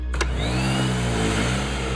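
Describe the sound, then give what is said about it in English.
A vacuum cleaner runs in a living room, a loud, steady motor drone with a thin whine riding above it, holding even throughout. “In the living room, Victor's mother stops vacuuming and looks up.”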